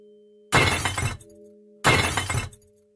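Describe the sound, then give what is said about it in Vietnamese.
Two loud crashes of something breaking and shattering come from inside a room, each a dense burst of just over half a second, separated by a pause, over a faint steady hum. “Tiếng đổ vỡ làm cắt ngang đi dòng suy nghĩ của Nam.”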